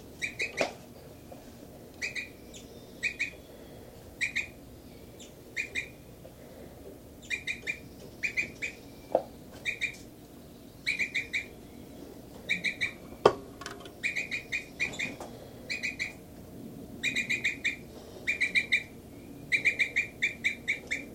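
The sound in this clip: Chirping from nesting birds: many short clusters of high, bright calls repeat in a steady pattern throughout, each burst clear above a faint, low background.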